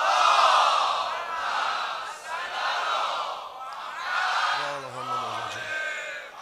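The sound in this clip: Large crowd loudly reciting salawat, the blessing on the Prophet, in unison at a religious gathering during a fast. The chorus swells and recedes in waves of many voices.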